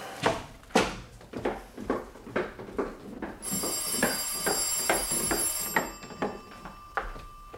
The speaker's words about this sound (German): Das Telefon.